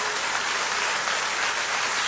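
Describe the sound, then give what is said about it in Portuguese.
Church audience applauding during a worship service, a dense, continuous hiss of many hands clapping together at an even, unbroken level. “louve o nome do Senhor, aplauda o nome do Senhor, glorifique o nome do Senhor.”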